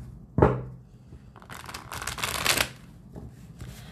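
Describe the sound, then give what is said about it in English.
Tarot cards being shuffled: a brief papery knock, then a sustained, bright riffling rush lasting about a second, followed by faint handling rustles. “I might get a little quieter as I shuffle the cards.”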